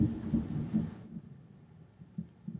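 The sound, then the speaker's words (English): Thunderclap from a storm: a loud, broad crashing rumble for about the first second, then a quieter low rumble with a few soft thumps toward the end. “that was a well-timed clap of thunder”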